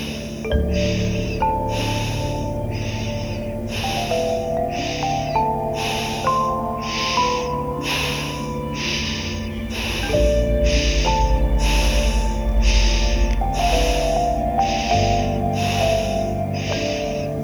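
Rhythmic breathing without pause in a chakra-cleansing meditation: many quick, sharp breaths repeat at a fast, steady pace over sustained musical tones and a low drone.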